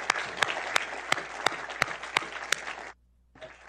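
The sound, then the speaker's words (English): Audience applause thanking a panel at a national security event: a dense burst of clapping with a few sharp louder claps standing out, cutting off abruptly and followed by a short faint sound. “please join me in thanking our distinguished panel, their thoughts and comments, and their work in national security. Thank you.”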